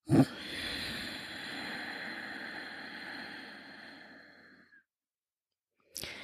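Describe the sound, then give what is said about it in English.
A slow exhale through the nose with the throat contracted gives a long, even, hissing breath that lasts several seconds and fades out. After a short silence, the start of another breath follows. “Inhale through the nose while gently contracting the back of your throat. And exhale slowly through the nose while keeping that throat contracted.”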